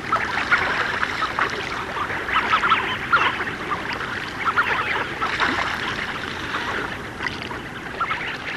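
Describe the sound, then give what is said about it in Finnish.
Migrating tufted ducks give soft bubbling calls at night by a shore along a boat channel. The faint, continuous murmur of many overlapping birds carries on without any single call standing out. “Kovin moni lintuharrastaja ei ole päässyt kuulemaan kunnolla tukkasotkien pulputusta, vain kuivia narahteluja.”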